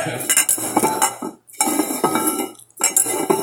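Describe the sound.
Cups are shuffled around on a table in three bursts of clattering and clinking, separated by two short pauses. No voices are heard.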